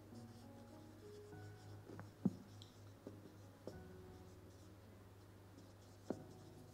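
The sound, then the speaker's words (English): Faint scratching of writing by hand, with a few soft ticks and taps from the pen over a steady low hum, no voices. “And the reason I'm writing, I'll tell you in a minute.”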